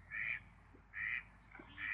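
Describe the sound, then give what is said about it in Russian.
Mallard ducks wintering on unfrozen water give three drawn-out nasal quacks, evenly spaced with a softer call between the last two, all faint against a quiet background. “Осенний отлет крякв заканчивается в конце октября, но в Петрозаводске на незамерзающих участках водоемов ежегодно зимуют довольно большие стаи, до 100 птиц.”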